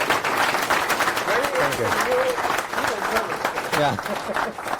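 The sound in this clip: Audience applause welcoming a guest speaker at a talk: dense, steady clapping that fills the whole stretch at an even loudness, with voices calling and talking over it.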